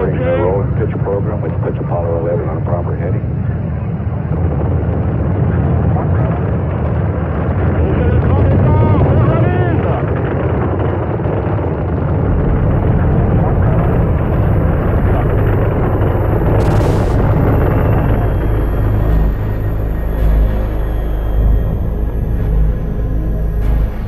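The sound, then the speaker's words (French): Continuous deep roar of a Moon-mission rocket's first-stage engines at launch, a dense low rumble that holds steady and loud throughout, with a voice audible at times. “À 100 km à la ronde, la Terre tremble sous les 35 000 tonnes de poussée des moteurs du premier étage”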